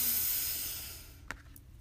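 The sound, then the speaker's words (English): A deep breath drawn in during a guided breathing exercise: a steady, airy hiss that slowly fades over about a second, then a brief soft click. No voices. “Our third breath in together. Breathe in”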